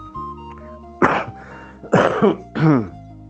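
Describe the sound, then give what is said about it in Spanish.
Three harsh coughs from a man, loud rough bursts with a throat-clearing quality, spaced roughly a second apart, with only a faint low hum between them and no speech. “perdón por la tos”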